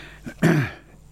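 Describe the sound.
A short throat clearing: a faint catch, then one gruff, rasping push that quickly dies away, heard alone.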